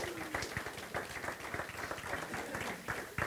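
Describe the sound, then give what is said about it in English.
An audience applauds to welcome a speaker to the stage, with dense, steady clapping that holds at an even level for the whole clip. “And can we welcome Shane up to the stage?”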